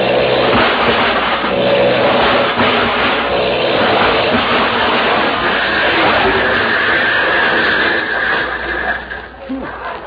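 Engine roar of an airplane with a failing motor swooping down to land in a front yard: a loud, rough, sustained mechanical drone with gritty, squealing texture that thins and drops away near the end.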